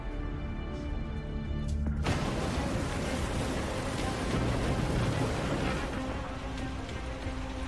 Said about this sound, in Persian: یه موج بزرگ داره از سمت چپ میاد. خودم کشتی رو هدایت میکنم.